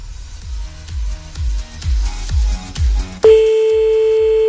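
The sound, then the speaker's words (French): A telephone call is placed late at night: a steady thumping bass beat pulses several times, then a continuous, bright telephone line tone starts abruptly and holds to the end. “Allez, c'est parti, on y va, on appelle de suite, là.”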